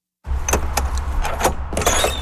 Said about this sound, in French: Il nous ouvre la porte de la petite remorque dans laquelle se trouvent ses derniers objets.